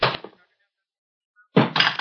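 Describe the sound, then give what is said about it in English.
Two guns are dropped onto the floor, making two separate sharp, clattering thuds divided by a silent pause. “Now drop your guns on the floor. Both of you.”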